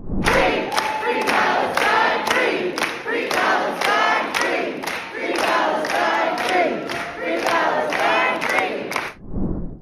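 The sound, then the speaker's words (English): A pro-Palestine crowd cheers and chants in an auditorium, with many loud voices shouting in steady, rhythmic repeated bursts that stop abruptly near the end. “Following this vote, a bunch of pro-Palestine white ladies cheered and danced and chanted in the auditorium.”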